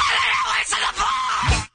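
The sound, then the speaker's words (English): A loud, strained scream from a played song clip holds steady for under two seconds, then cuts off abruptly. “Are you ready for your song? Yes. Well, your scream, here it is.”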